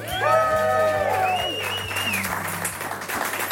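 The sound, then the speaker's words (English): Applause and cheering from a live audience of Fellowship Bible Church staff in Brentwood, Tennessee, with a few high whoops over the clapping early on, then continuing hand claps that stay fairly loud over a low steady hum. “Today, we're thrilled to be recording our podcast live in front of the dedicated staff of Fellowship Bible Church in Brentwood, Tennessee. Let's hear it from everyone here.”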